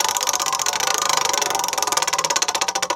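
A mechanical prize wheel spinning, giving a loud, dense run of rapid ticking clicks that grow sharper and more distinct toward the end.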